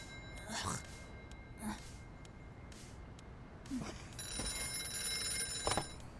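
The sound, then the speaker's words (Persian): A telephone rings with a steady electronic tone through the second half. The ringing is faint, and voices talk before and around it. “آقای کوین، میشه گوشی رو برداری؟”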